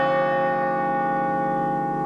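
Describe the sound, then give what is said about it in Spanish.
A bell is rung once, giving a single steady, resonant tone that holds and fades only slightly over about two seconds, with no other sounds. “Todo esto se cierra con un campanazo que ya lo hago en 3, 2, 1 y lo hice.”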